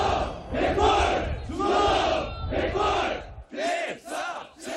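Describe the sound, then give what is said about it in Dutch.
South Korean soldiers shout together in unison during military training. Many loud, rhythmic group cries come in regular bursts, with the later ones shorter and clipped. “En hier hoort u Zuid-Koreaanse soldaten trainen.”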